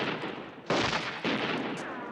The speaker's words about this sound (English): On a cliff above, Bodine aims his rifle. The shot hits Brighton, and Dylan returns fire.